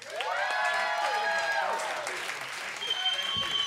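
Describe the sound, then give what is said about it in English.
An audience claps and cheers as comedian Jerry Rocha comes onstage at a stand-up show. The clapping stays steady throughout, and a voice speaks over it. “Put your hands together for Jerry Rocha.”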